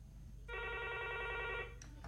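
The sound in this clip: A telephone ringing: a single faint burst of trilling ring tone that lasts about a second and then stops, over a low background hum.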